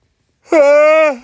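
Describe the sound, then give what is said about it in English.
A single drawn-out yawn from a person lying down: a voiced, tonal groan that opens with a brief rise, holds steady for under a second, then trails off. No words are spoken. “this is the only problem with lying down is that I start yawning”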